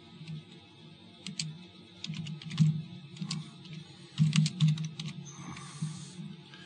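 Typing on a computer keyboard that had just started working again: many quiet, irregular key clicks and taps over a low, steady background hum.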